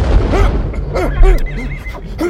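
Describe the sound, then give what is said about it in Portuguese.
Horses neigh and whinny in repeated shrill, arching calls over a low rumbling boom, an explosion effect for an escort carriage blown apart in a steampunk setting; the loud whinnies overlap one another throughout. “De repente, a carruagem de escolta de trás explodiu.”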